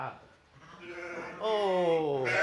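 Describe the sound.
Sheep bleat inside a small stable beside monastery fields. A faint, short bleat comes first, then a louder, long, wavering bleat carries through the second half.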